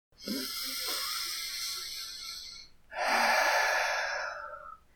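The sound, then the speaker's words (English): A deep breath drawn in through the nose and released through the mouth: a long, airy inhale of about two and a half seconds, a short pause, then a louder, rougher exhale of about two seconds, with no talking. “I want you to take a deep breath in through your nose and out through your mouth.”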